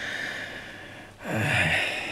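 A patient takes a deep inhalation after surgery to remove a cyst from the airway. Steady airy noise dips briefly, then gives way to a louder, rougher intake of breath near the end, with no talk.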